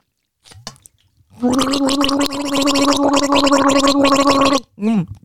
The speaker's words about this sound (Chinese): 你有没有 gargle 啊的习惯，就像漱口这样，拿个水这样，这样的哈。我弄给你看，我先喝一口给你看